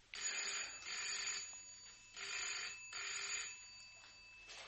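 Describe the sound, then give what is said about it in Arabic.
A telephone rings in an office, giving a high, steady electric trill in two double bursts separated by a pause. The ringing is faint and sounds alone. “حاضر، تليفون علشانك”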